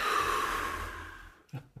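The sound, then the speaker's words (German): Soft breathing: a long, airy breath that slowly fades, then a brief, sharper breath sound at the end, with no talking. “Einatmen. Und ausatmen.”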